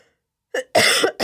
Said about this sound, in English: It's not a good day if I don't cough on the air.